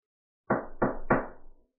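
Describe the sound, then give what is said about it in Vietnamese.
Three firm knocks on a door, evenly spaced and heavy, each a dull low thud with a short decay, heard alone against silence. “Tiếng đập cửa vang lên.”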